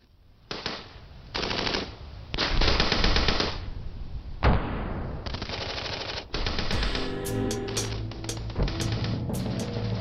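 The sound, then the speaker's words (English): A gas-operated Lewis machine gun fires in an audio drama. There are several loud, rattling bursts of rapid shots, one sharp report midway, and crisp higher clicks toward the end. “A Lewis machine gun is gas operated. A portion of the expanding propellant gas is tapped off from the barrel, driving a piston to the rear against a spring.”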